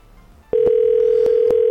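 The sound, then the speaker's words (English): Steady telephone dial tone heard while a three-way call is being placed. It cuts in abruptly after a short quiet start and holds at an even pitch to the end, with a few sharp clicks over it. “I'm going to make another call to another person without hanging up. We're going to make a three-way call. Here it goes.”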